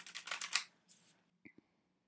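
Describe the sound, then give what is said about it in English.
Oracle cards being shuffled: a quick run of rapid, papery riffling bursts, then a softer brief rustle and two small taps. The sound is fairly faint and has no talk over it. “If you hear the shuffling in the background, that's what that is. Maybe that feels good. Let me do one more shuffle.”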